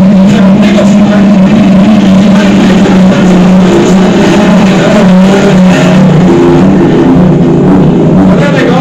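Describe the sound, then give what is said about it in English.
Race cars accelerating as the pack hits the throttle, with engines roaring in a loud, sustained drone that never lets up and shifts slightly in tone. “But it looks like the pack has hit the throttle and it's going to take a big of a start.”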